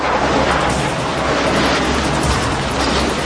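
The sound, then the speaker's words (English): A truck hurtles out of a darkened garage with a loud, continuous roar of engine and rushing road noise that stays dense and steady throughout. “As the man replaces the items in his pocket, a truck turns on its lights and hurtles towards him from a darkened garage.”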